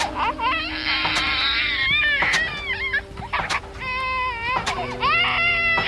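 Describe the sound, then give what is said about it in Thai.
An infant cries hard and without stopping, with loud, high wails that bend up and down in pitch and break into shorter sobbing bursts between longer drawn-out cries. “ทำไมเขาร้องไห้ขนาดนี้นะ”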